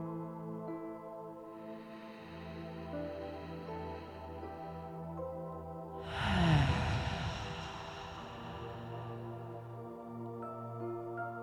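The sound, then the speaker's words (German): One long, deep breath rushes in and out midway through, rising and fading over a soft bed of sustained tones that continue alone before and after. “Vielleicht möchtest du einmal hier ganz tief ein- und ausatmen.”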